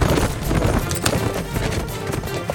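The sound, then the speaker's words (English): Horses gallop hard as withdrawing Confederate riders retreat, a dense, continuous rush of pounding hoofbeats with no break from start to finish. “Confederates withdrew, riding hard until they were well out of range.”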